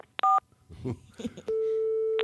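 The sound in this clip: A telephone keypad tone sounds as key 7 is pressed in an automated phone menu: one short, bright two-pitch beep, then brief talk, then a long, steady single-pitch tone that holds to the end.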